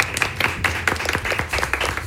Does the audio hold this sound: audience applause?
yes